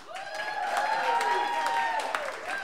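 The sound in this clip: Audience applause welcoming a singer-songwriter on stage, faint scattered clapping with cheering voices rising over it throughout.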